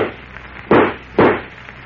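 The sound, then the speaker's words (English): Two gunshot effects fired at Superman in a radio drama, each a loud, sharp crack with a short decaying tail, about half a second apart. “I'll shoot. Go ahead.”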